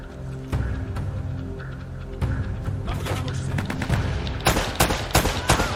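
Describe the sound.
Gunfire in a video game shooter: sharp bursts of rapid shots crack over a low rumbling backdrop, sparse at first, then growing denser and louder toward the end.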